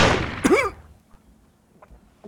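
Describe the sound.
A single gunshot cracks loudly at the very start, its harsh burst fading over about half a second, followed by a short swooping tonal sound and then near silence with faint scattered ticks.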